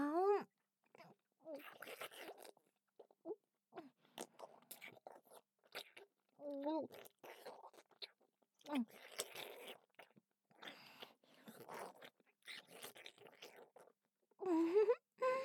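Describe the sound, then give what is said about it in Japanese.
Wet mouth sounds of a kinton sweet being rolled around and chewed: soft, close clicks, smacks and squelches come in many short bursts, with breathy vocal murmurs between them. “のキントンをお口でコロコロってするのも好きなんだよね、僕。”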